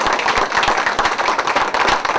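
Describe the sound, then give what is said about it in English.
Audience applause for a panel discussion: dense, steady hand clapping fills the whole stretch at an even loudness, with no voices on top. “How about a nice round of applause for all these queens?”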